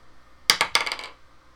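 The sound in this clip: Dice roll during a tabletop role-playing game, giving a quick clatter of several sharp, bright impacts on a hard surface that ends within about half a second.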